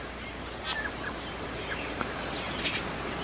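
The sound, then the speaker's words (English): Birds chirp outdoors in New Zealand, giving a few faint, brief high chirps scattered over a steady background hiss. “chirping right over my shoulder here. The wind has died down. So it's just really, really amazing here, the sound of the birds that are my beautiful, beautiful friends.”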